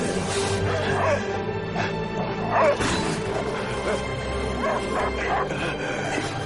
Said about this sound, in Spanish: El perro se lanza contra el zombie y pelea.